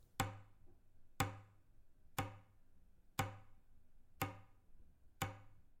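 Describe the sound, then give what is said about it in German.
A wall clock in a hallway beside the coat rack ticks six times, each sharp tick evenly spaced about a second apart and ringing briefly before the next, with no voices around it. “Was war das? Ah, es war die Uhr, welche im Flur neben der Garderobe hing.”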